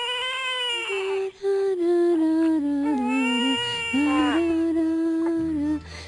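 An infant girl cries in a few long, loud wailing bursts with wavering pitch, separated by brief catches of breath, with no talk.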